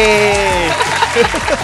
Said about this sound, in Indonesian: Tepuk tangan lagi.